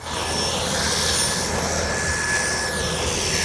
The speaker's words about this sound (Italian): raggiungiamo l'aeroporto e arriva l'aereo.